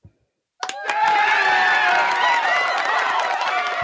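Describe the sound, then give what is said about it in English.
A live studio audience breaks into applause and cheering. After a moment of quiet, the clapping and whoops start abruptly and hold loud and steady to the end. “Welcome. That was our live studio audience.”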